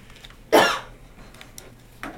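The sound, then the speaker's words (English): One loud, sharp cough bursts out alone and quickly fades, followed about a second and a half later by a much fainter, brief breathy sound. “Sorry, I have to cough too.”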